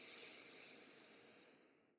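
One slow, deep inhalation during a breathing exercise, heard alone as a faint, airy hiss that gradually tapers away over about two seconds.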